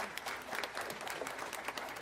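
A church audience applauds during a Spanish-language service, producing continuous, fairly soft clapping from many people, thick and even throughout with scattered sharper claps poking through.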